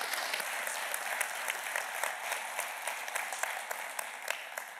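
A church audience applauds to welcome a guest pastor at Valleybrook, with dense, steady clapping that stays loud and even for the whole stretch.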